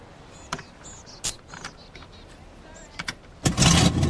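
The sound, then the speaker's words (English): An old motorhome's engine starts up: a few faint clicks and taps, then a sudden loud burst of the engine catching in the last half-second. “The motorhome starts up.”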